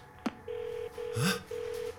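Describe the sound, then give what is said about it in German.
A satellite phone is dialed: a sharp click, then three steady, mid-pitched electronic beeps separated by short breaks, all fairly faint. “Dann schnappen Sie sich das Satellitentelefon und rufen Sie Briggs nochmal an. Das mache ich.”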